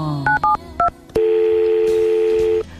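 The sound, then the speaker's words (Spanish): Telephone number being dialed: three short, bright two-note keypad beeps, then a long steady line tone, loud and alone. “Pues voy a ver si llamo a Sebas”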